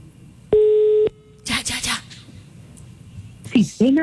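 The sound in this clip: A phone rings back while a call is being placed: one short, bright ring tone, then a quiet gap, rustling bursts and brief voices near the end.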